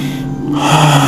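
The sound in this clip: A single deep breath drawn in during a guided breathing exercise, a soft airy rush that swells toward the end, with a low steady tone underneath.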